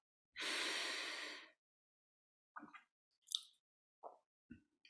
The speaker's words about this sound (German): Atme bitte tiefer ein.